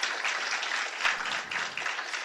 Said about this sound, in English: So give yourself a nice round of applause for actually coming out and doing something.